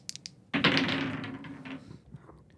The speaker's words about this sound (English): And you roll them. It's time to roll some dice for some cheap fun presented by pub beer.